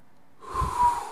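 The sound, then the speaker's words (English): A single deep, audible breath drawn sharply through the nose, rising quickly from silence into a breathy rush and lasting under a second. “And I just want everybody that's listening to this particular part of this message this morning to just take a deep breath in.”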